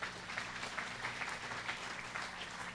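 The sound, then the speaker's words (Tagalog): An audience applauds in dense, steady clapping that runs throughout, fairly faint, with no voices over it. “Pwede bang palakpakan natin ang Lord doon?”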